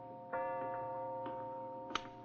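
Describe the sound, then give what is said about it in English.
A clock ticks with a few soft, unevenly spaced clicks over a steady droning hum that runs through the whole clip. “Is that clock right”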